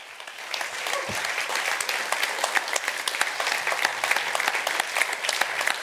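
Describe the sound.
A church audience at CCK Shoreham applauds to welcome a guest speaker, clapping that swells quickly from a softer start into a steady, lively patter with sharp individual claps standing out.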